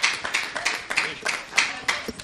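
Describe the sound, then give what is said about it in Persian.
Applause from people gathered to cheer someone on, heard as a run of evenly spaced, rhythmic claps at a moderate, steady tempo. “دست تشویقش کنیم بشینه.”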